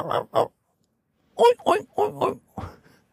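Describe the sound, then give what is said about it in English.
A voice imitates an excited pig grunting at a toilet pen in India, a string of short throaty grunts: two quick ones, a pause, then a faster run of several more, fairly loud and alone. “there was a pig getting really excited and going,”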